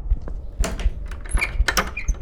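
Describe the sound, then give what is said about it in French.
A door creaking open, with short high squeaky whines mixed with a few low thuds. “La poignée de la porte tomba et la porte grinça.”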